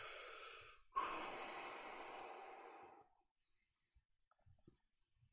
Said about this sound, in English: as I breathe into this breath